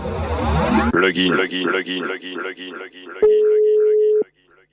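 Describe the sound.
A telephone call being placed: a short burst of noise gives way to a repeating pattern of rippling electronic tone pulses, then a steady held tone sounds for about a second and cuts off into silence.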